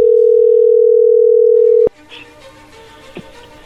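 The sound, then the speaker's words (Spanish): A telephone dial tone heard while a call is being placed: a loud, continuous, steady low tone holds for nearly two seconds, then cuts off abruptly into faint line noise. “Vamos a ver qué pasa, vamos a llamarle.”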